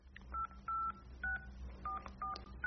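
Telephone keypad tones sound while a number is dialed: six short, evenly pitched beeps in an irregular rhythm, faint against a low background hum.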